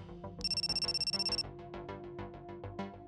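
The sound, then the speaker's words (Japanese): A mobile phone rings in a trouser pocket: a bright, rapidly trilling electronic tone lasts about a second over a busy musical background, which carries on after the ringing stops. “突然ズボンのポケットに入れていた携帯が鳴り始めた。”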